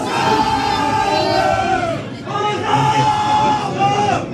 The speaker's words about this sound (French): Là aussi, le bar est archi plein, mais j'arrive à me faufiler et me trouver une place près de l'entrée. Les supporters sont à fond.